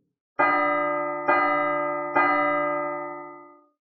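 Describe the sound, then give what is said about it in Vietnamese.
A large golden bell rings out in three resonant strikes at an even pace, each clang rich and sustained, overlapping the fading hum of the one before, and the last slowly dying away into silence. “Tiếng chuông dằn dặc không ngừng vang lên.”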